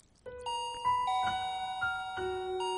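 A gate doorbell chime plays a short melodic run of several bright electronic notes that overlap and ring on over a low background hum.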